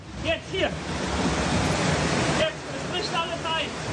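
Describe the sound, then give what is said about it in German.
Flood water rushes with full force through Dernau, a village on the Ahr river, in a dense, steady roar throughout. Voices call out briefly over the rush near the start and again toward the end. “Danach trifft es Dernau, das Dorf an der Ahr. Die Flut kommt mit voller Wucht.”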